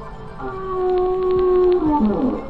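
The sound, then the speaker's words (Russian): Whale song in the ocean: long, tonal, harmonic moans that hold steady and then bend downward near the end, over a low background rumble. “Погоди, дядя Кузя, кажется, прямо по курсу еще один кит. Ой, он разговаривает. Даже, кажется, поет.”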